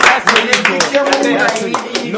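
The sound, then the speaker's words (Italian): Studio audience claps for quiz show contestants in a brisk burst of many hands. The applause holds fairly steady for a couple of seconds while voices carry on over it. “Un applauso. Complimenti.”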